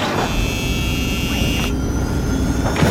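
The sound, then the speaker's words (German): Aircraft engine starting and taking off, played as a sound effect: a loud, steady roar with a high thin whine over it that cuts out partway through while the rumble carries on. “Hui, wir starten und heben ab von der Erde.”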